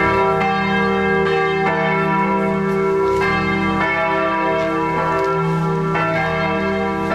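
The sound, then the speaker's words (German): Church bells ring at St. Georg church in Wendessen in a loud, continuous peal of overlapping strikes with sustained resonant tones, steady throughout. “jetzt habe ich das Gefühl, ist er irgendwo an der Kirche. Woher ich das Gefühl habe? Na ja, hören Sie mal.”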